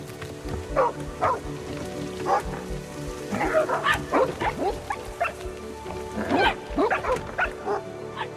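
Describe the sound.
Several excited dogs bark and yip in many short, sharp bursts that cluster in quick runs, with a steady background noise beneath them.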